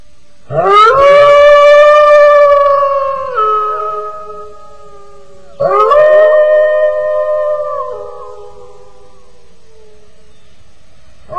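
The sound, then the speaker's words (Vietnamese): A dog howls wildly in two long, drawn-out cries, each rising briefly, holding a steady tone, then sliding lower as it fades. Both are loud, with nothing else heard around them. “Từ đằng xa không thấy dạng mà lại nghe có tiếng chó tru rống lên như điên dại.”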